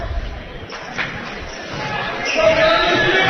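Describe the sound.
A basketball is dribbled on the court during a high school game between Greenup County and Round County. A few bounces thud under a commentator's steady play-by-play, with a low crowd murmur behind.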